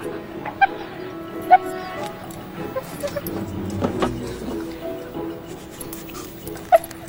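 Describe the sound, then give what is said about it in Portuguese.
A dog tracking people by scent gives a few short, sharp yips and whimpers over a low, murky background. “Ah, não, eles arrumaram um cachorro. E daí? Bom, os cães são muito bons em sentir cheiro.”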